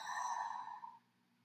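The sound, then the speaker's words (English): A single long breath out, taken as part of a guided relaxation exercise, comes through as a faint, soft, airy sigh. It holds steady for about a second and then fades away, with no talking over it. “One big inhale and a big exhale out, letting the shoulders fall down the back.”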